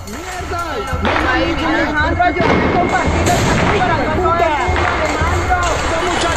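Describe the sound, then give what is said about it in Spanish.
Gunshots during a protest in Siloé, Cali: a few sharp, loud bangs cut through a dense mix of shouting voices and crowd noise that never lets up. “Aquí en Siloé nos acaban de matar a los muchachos! Están disparándole a la gente de Molina, aquí pelo. Están disparando.”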